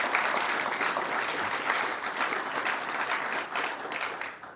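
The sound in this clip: Audience applause welcomes a speaker at the Commonwealth Club: a dense, steady wash of clapping that holds level and then tapers slightly at the end.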